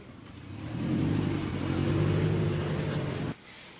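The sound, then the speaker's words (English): A car driving away. A broad engine rumble swells as the car accelerates and holds strong for a couple of seconds, then cuts off abruptly to a quieter hum near the end. “There she goes, driving away, Mary Pelota”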